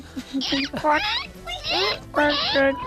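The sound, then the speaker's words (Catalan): A child imitates a platypus with a run of high, squeaky, squealing vocal bursts, about four in a row, each wavering in pitch, fairly loud and with no other sound behind them. “I com sona un ornitorrinc?”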